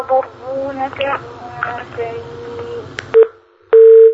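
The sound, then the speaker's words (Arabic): A telephone line gives a tone after a call is cut off: talk breaks off, a short beep sounds, and then a steady, loud electronic tone holds on one pitch to the end. “واضح الاتصال انقطع”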